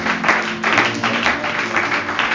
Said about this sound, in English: Let's put our hands together and give him a warm welcome to us.